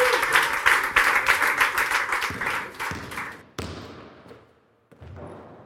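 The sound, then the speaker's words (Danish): A studio audience applauds at a basketball quiz show. The clapping is loud and rhythmic for about three seconds, then a couple of sharp hits cut in as it fades away. “I sidder dernede. Giv mig en hånd. Giv jer selv en hånd.”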